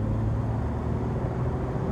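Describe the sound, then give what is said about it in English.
A car driving down the Long Island Expressway in Queens, New York, after midnight, heard as a steady, even low road rumble and engine drone with no voices. “In Queens, New York, Musk drives down the Long Island Expressway. It's after midnight, and looking ahead, he sees the bright lights of the Manhattan skyline beckoning.”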